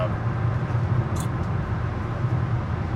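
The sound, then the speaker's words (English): A car driving down the road toward Castle Rock gives a steady, low engine and road rumble. The drone holds evenly throughout with a faint hiss on top. “Right now we're driving down to Castle Rock to water a”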